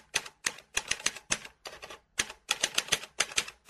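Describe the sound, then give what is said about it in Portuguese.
Fingers typing a password on a keyboard: many rapid, crisp key clicks in short bursts with brief pauses between them, heard alone. “Deixa eu digitar a senha aqui. Senha incorreta. Digite sua senha ou tecle barra para desistir. Ah, não acredito, mas eu digitei certo. O que será? Vou tentar de novo.”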